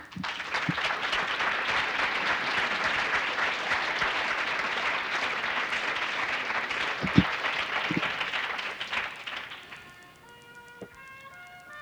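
An audience applauds to welcome the featured guest on stage. Sustained, dense clapping carries for most of the span with a few sharper hits, then tapers off toward the end.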